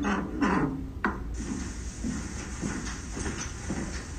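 A door lock turning, picked up by a sleep tracker at 1 a.m., gives a brief rattling clunk and then a sharp click, followed by a steady low hiss.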